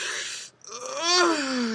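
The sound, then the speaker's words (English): A single yawn given while stretching: a brief breathy intake, then a drawn-out voiced yawn whose pitch climbs and then slides back down as it trails off. “stretching and yawning at the same time.”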